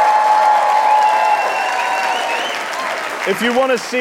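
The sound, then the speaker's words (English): Live show audience applauding and cheering, a loud steady wash of clapping that eases slightly before a voice starts speaking at the end. “Quick poll of the audience. It's a podcast, so make some noise.”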